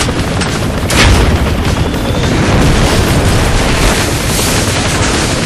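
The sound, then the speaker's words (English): Heavy booming blast of a mortar fired in a battle, loud and dense, with one sharp boom near the start and a sustained roar of rumbling explosions and gunfire-like crackle throughout. “fire a mortar.”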